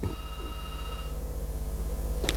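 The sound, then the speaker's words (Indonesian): Telephone ringing with an incoming call on a busy call-in line: one bright ring of stacked steady tones lasting about a second, then a low steady hum and a brief sharp click near the end. “ini Mori baru mulai, tapi telepon nih udah antri banget nih. Kita angkat dulu telepon yang ada.”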